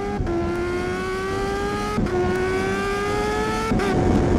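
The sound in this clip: A car engine accelerates and revs hard. Its loud, steady note climbs in pitch across three stretches, each separated by a brief break.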